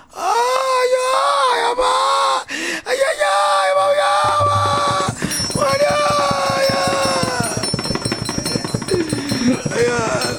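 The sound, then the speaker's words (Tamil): A single voice wails and cries in long, wavering, moaning tones, loud and continuous, then carries on over a dense, rapid rhythmic pattern through the second half. “ஐயோ, ஒற்றை குரல் ஓசை, அழுசத்தம், இதெல்லாம் வேண்டாம்.”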